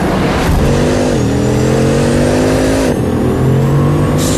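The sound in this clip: A hypercar engine accelerates hard, a loud, continuous roar whose pitch climbs and then drops twice as gears shift, each time rising again.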